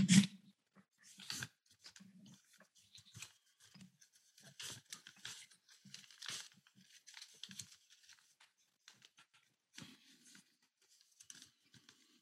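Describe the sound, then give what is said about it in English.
A paper triangle is folded and creased, giving many soft, scattered crinkles and taps. They are faint and irregular, with a sharper rustle at the start and no talk. “You're just going to fold your triangle. Fold the triangle, yeah. And give them a good crease.”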